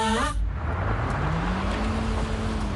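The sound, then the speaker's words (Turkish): An old, worn-out car struggles to climb a hill, its engine a strained, steady drone. The engine note slowly rises in pitch as it labours, after a brief tonal sound at the very start. “Yokuşu çıktıktan sonra sağa dönün. Çıkabilsem döneceğim de bizim emektar çıkmıyor.”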